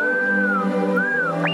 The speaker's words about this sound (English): What do you mean, Artoo? That noise is singing, you silly bucket.